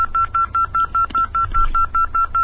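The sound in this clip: Telephone keypad dialing tones as a call is placed: a rapid, evenly spaced run of many short, bright beeps over a faint low hum.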